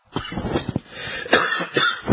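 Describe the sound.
A cough to clear a frog in the throat comes as several rough, throaty bursts of uneven strength, clustered close together and heard alone without speech.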